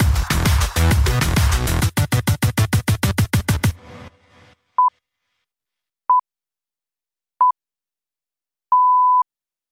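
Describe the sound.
Radio Farda time signal for 21:30: the tail of rhythmic music cuts off, followed by four clean mid-pitched beeps at even intervals, the last held noticeably longer than the first three.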